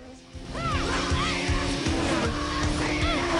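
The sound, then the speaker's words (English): A motorbike engine revs hard as the rider guns it forward during a fight. It is a loud, sustained low drone with higher whining arcs sweeping over it. “China pulls her butterfly knife and guns her bike towards Shane.”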